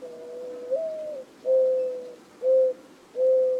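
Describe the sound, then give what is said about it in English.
A dove cooing alone: four low, hollow coos, the first long with a slight upward step in pitch, the later ones shorter, against a quiet background. “And I was walking in the dirt by some oleanders, and I heard the dove.”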